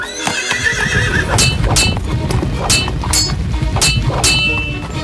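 A small horse neighs, then its hooves clop along with several sharp metallic clangs, loud and alone, evoking a knight in white armor riding into battle in a fairy tale.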